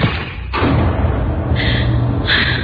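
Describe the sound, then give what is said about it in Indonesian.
A notebook thrown against the corner of a room lands with one dull thud, then a continuous noisy hiss fills the rest. “Refleks, aku melempar buku catatan itu ke pojok ruangan.”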